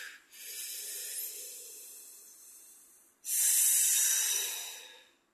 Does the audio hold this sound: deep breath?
yes